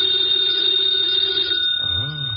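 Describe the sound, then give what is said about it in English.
A telephone bell rings with a loud, steady, bright trilling tone that holds for well over a second and then stops. “Should never ignore a phone call. Who knows? Might be something important.”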